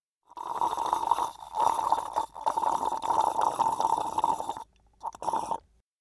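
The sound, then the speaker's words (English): Liquid gulping of someone drinking, with a few bursts of swallowing separated by short pauses, fairly loud and without any talking. “He's drinking.”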